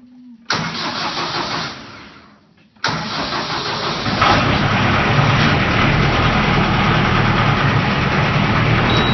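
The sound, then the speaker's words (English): A tractor engine, a grandpa's machine in Michigan, cranks for a couple of seconds, briefly drops off, then catches and settles into a loud, steady, rumbling run that holds to the end. “This is the sound of my grandpa starting his... tractor. I like that sound because I get to ride with my grandpa on the tractor.”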